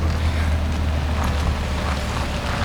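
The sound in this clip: A car engine drones steadily as the vehicle drives onto a property, a constant low rumble with windy noise and no distinct separate events.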